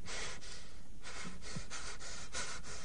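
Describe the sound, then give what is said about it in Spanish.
Ragged, panting breaths of a young man trapped in a tiny, cramped space, quiet but rapid, with many short airy gasps coming in an uneven rhythm. “Su respiración continúa entrecortada”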